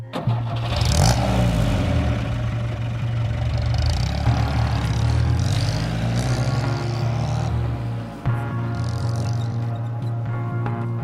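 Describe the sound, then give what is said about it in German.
A car engine starts and settles into a steady, continuous rumble with a few rising and falling revs, as if pulling away for a drive of nearly 100 kilometres. “Am Freitag werfe ich ein paar Sachen auf den Rücksitz und fahre die knapp 100 Kilometer nach Dunlap”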